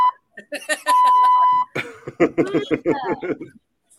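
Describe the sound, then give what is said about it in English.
A single steady censor bleep, a flat mid-high electronic tone lasting under a second, cuts across people talking and chuckling, with voices resuming right after it. “Just a big beep.”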